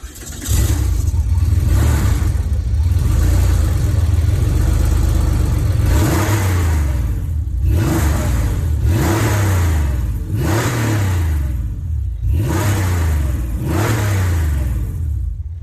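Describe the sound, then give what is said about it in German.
A Porsche 964 Carrera RS's 3.6-litre, 260-horsepower flat-six boxer engine starts and settles into a loud, throaty idle, then is blipped several times, each rev sweeping sharply up and dropping back. “Was ihr da hört, ist ein 3,6 Liter Boxer Sechszylinder. Also, ja, urtypisch für Porsche.”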